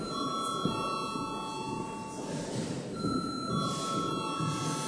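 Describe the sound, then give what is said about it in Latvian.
A parliament chamber bell rings to call members to a vote, a steady, unbroken electric ring that holds at an even loudness for the whole clip, with no talk over it. “lūdzu zvanu”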